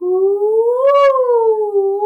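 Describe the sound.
A voice imitating an ominous feral dog howl heard at night in Costa Rica, one sustained hooting tone that rises to a peak midway and then slowly falls, loud and alone.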